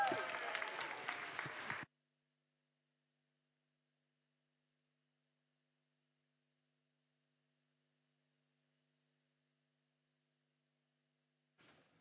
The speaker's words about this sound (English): Can we give a huge whoop and welcome for John Groves as he comes to preach to us?